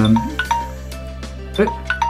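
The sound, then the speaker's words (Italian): A timer keeps ringing, giving several bright electronic chime tones at uneven intervals over a steady low hum. Each tone is short and clear and fades quickly. “questo timer continua a suonare, non lo possiamo fermare, ignoriamo”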